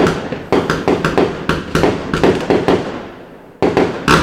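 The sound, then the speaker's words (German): Fireworks bursting as a run of sharp, loud bangs in quick, irregular succession, each followed by a short decaying crackle, with a brief lull before a few final blasts. “ist immer noch Feuerwerk im Hintergrund, obwohl ich weiterreden möchte.”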